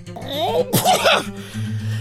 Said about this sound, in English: Was that a sneeze?